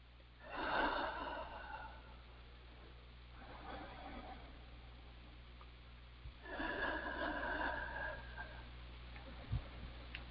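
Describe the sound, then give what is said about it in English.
Three slow, deep breaths taken during a guided healing session, each a soft, drawn-out airy inhale and exhale, spaced a few seconds apart and fairly faint. “Yes, and take three nice deep breaths.”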